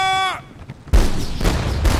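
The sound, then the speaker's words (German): Ship's cannons firing in a sea battle: a sudden heavy boom erupts into a continuous loud, rumbling roar of blasts and noise. “Kapitän, alle Geschütze besetzt. Da kommen sie. Geschützmeister, klar zum Gefecht. Feuer!”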